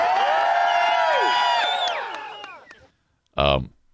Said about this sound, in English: Could you yell, big cheers for 0 points? Hey, big cheers for 0 points.